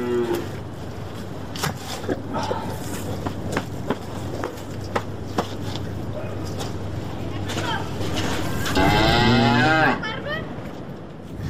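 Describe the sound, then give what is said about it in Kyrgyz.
Cattle mooing as livestock head out to pasture: a single drawn-out, low moo rises clearly near the end over a steady background rumble and scattered sharp knocks. “Мына монтип жайытка чыгат мал.”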